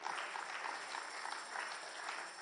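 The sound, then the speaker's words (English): An audience claps hands during a church service. Many overlapping claps form a faint, steady wash that lasts the whole clip. “Give the Lord a hand clap for that.”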